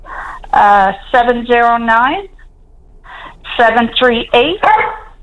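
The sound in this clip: A dog gives loud, drawn-out barks and yelps in two clusters separated by a short pause, some ending in a whining rise of pitch.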